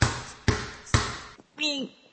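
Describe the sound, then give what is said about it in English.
A basketball is dribbled between a player's legs: three heavy, evenly spaced bounces with sharp thuds, followed by a faint tap and then a short spoken voice. “Well, now he's dribbling it between his legs. Dribbling what, Don? The basketball.”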